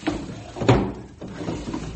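A desk drawer slides open with a scraping, rumbling rub. A couple of louder bumps and knocks follow as it moves.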